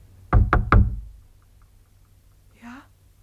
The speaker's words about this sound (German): Aber diesmal ist es eine Hand, die pocht. Kein Gewehrkolben.